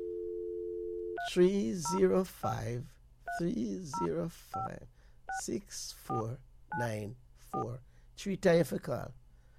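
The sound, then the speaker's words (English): A telephone dial tone is followed by a long run of short keypad beeps as a phone number is dialed. Each brief beep is separated by a voice speaking, in a steady back-and-forth rhythm. “So let's dial it again, right?”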